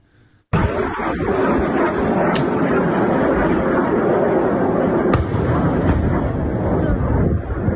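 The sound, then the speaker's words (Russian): An explosion from a video of an air battle filmed at a ship repair plant in Kerch: a sudden loud blast breaks in after a short quiet moment and turns into a sustained, heavy rumbling roar for several seconds. “Там взрыв, слышишь?”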